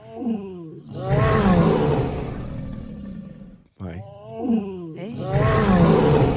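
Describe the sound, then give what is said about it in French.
A lioness lets out loud, rough roars in two long drawn-out bouts separated by a brief break, with groaning tones rising and falling. “Ça a fait mal. C'est le son de la lionne, ça.”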